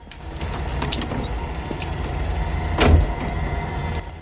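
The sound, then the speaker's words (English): A hotel room door being unlocked, opened and closed. Faint clicks and rattles sit over a steady low rumble, and one louder thud comes near the end. “She comes to Doob's room, unlocks it, and goes inside, closing the door behind her.”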